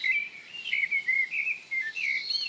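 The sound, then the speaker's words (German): European robin song: thin, high, silvery warbling phrases that follow one another almost without pause, bright and fairly faint, with no other sound. “erklingt der Gesang des Rotkehlchens silberhell, perlend und melancholisch.”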